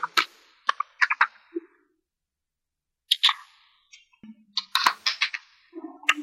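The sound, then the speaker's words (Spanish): Tarot cards being shuffled make crisp snapping and flicking sounds in irregular short bursts, with a silent pause between the first and second groups. “Pues voy a revolver las cartas y vamos a ver qué te dice esta semana el tarot, querida Isa.”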